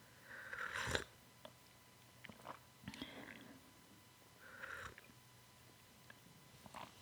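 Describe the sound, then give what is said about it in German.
Quiet sips from a cup of tea, a few soft slurping bursts separated by near-silent pauses, faint overall. “ich habe mir hier so einen, auch schon einen Tee gemacht. Ich trinke den mal kurz.”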